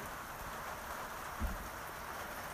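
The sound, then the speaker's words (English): Rain patters steadily on tin roofs in Portobello on the Otago Peninsula, a dense, continuous hiss of drops with one brief low thump midway and no voices. “that's the rain on the roof. All the buildings here are tin roofs, so pitter patter is what you always hear”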